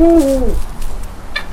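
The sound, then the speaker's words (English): A female Eurasian eagle owl gives a single deep hoot that dips slightly in pitch as it ends, followed by quieter background noise. “And she is an owl. I can identify that much. What kind of owl? This is called a Eurasian eagle owl, and that's the largest species of owl in the world. It really sounds as though she's saying, who?”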